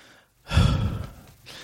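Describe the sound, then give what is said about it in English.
A single deep breath, a long airy rush that swells quickly and then slowly fades. It is fairly loud, with no speech. “Let me take a breath.”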